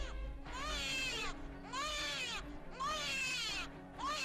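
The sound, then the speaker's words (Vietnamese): A newborn baby cries at night in rhythmic wailing bursts, four high, strained cries with short breaths between them, the last cut off, faint but clear. “Đứa bé vừa sinh ra còn đỏ hon hòn. Tiếng khóc của nó trong đêm như xé vải vậy.”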